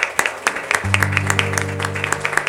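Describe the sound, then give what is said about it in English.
A church audience claps their hands in praise, many claps in a brisk, fairly even rhythm. Partway through, a sustained keyboard chord enters and holds beneath the clapping. “Let's give the Lord a hand clap of praise this morning.”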